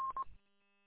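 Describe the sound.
Keypad tones from a telephone being dialed, two short, clear electronic beeps in quick succession, followed by a brief low thud and then near silence.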